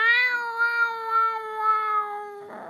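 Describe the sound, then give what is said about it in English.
A cat's long, drawn-out meow in a gravelly undertone, one loud sustained call with rich steady harmonics and a slight downward drift, cut off by a short rough burst at the end. “she meowed in her gravelly undertone voice”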